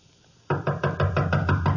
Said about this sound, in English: Just knock on the door and go in.